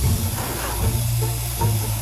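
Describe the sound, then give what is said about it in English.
Water boiling, heard as a steady rushing hiss with a low bubbling rumble underneath that holds throughout without pause. “Okay. Boiling.”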